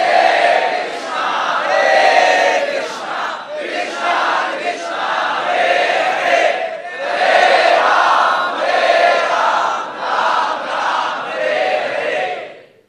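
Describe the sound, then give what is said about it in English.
A crowd chants the holy name in unison, with many voices rising and falling in rhythmic repeated waves of loud call-like phrases that continue throughout. “This is the great gift of chanting the holy name.”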